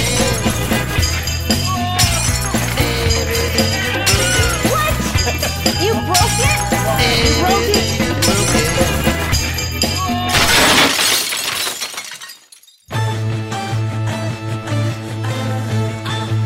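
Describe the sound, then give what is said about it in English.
Glass bottles breaking in a sound collage: loud, dense, continuous shattering and clinking that cuts briefly to silence, then bursts back in with more crashing glass. “We heard Bottles Broken, a collage by Jeff Barr”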